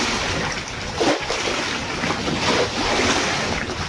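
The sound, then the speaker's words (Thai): Strong wind drives waves across floodwater in Chachoengsao province, Thailand, making a steady rushing wash with gusting wind noise and occasional louder surges. “น้ำท่วมก็ยังไม่พอครับมันเจอคลื่นลมแรงอีกครับ”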